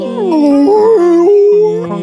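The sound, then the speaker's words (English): People imitate walrus calls at a live festival show. Long, wavering, howl-like tones from at least two voices overlap, sliding up and down in pitch and sustained throughout. “You guys sound like a bunch of walruses or something.”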